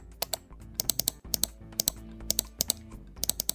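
Rapid clicking from scrolling on a computer: many sharp, crisp clicks in irregular bursts over a soft, low hum, with no voices.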